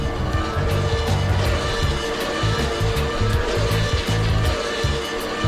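A black Ferrari's engine roars at high speed on a motorway, at about 140 km/h, with a loud, sustained drone that pulses as the revs rise and fall.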